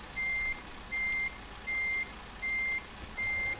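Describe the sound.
A truck sounds its reversing alarm: five evenly spaced, high-pitched beeps, each about half a second long, over a low, steady engine rumble.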